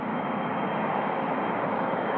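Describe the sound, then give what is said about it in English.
A garbage truck idles across the street, giving a steady, even engine drone with a broad hissing rumble that holds at a constant low level throughout. “There's a garbage truck idling across the street.”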